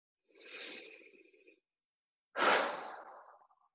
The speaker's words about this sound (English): And take another deep breath and let it out.